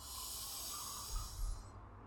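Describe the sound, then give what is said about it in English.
A deep inhale during a yoga breathing exercise comes as a soft, faint, airy hiss of drawn breath, steady for about two seconds with a couple of slight nasal bumps near the end. “Let's take a nice deep inhale here.”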